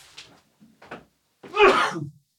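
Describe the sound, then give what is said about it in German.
A single human sneeze: a few faint, breathy intakes, then one loud, noisy burst that fades out quickly. “Achtung, ich muss niesen.”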